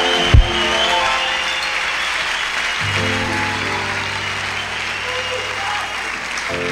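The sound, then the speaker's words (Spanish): Applause from a church audience at a lively worship service: a steady, dense wash of clapping that carries on throughout, opening with one brief loud thump. “Dale la gloria con un aplauso de Dios.”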